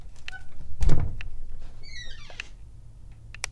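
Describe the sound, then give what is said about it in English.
A door being opened gives a dull thunk, followed a moment later by a few faint, high squeaks. “Okay, let's open the door.”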